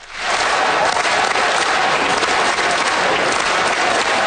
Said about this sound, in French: Les députés fédéraux ont réservé un accueil triomphal hier aux athlètes olympiques et paralympiques qui ont performé à Milan-Cortina. Les sportifs ont défilé dans la Chambre des communes sous un tonnerre d'applaudissements des élus.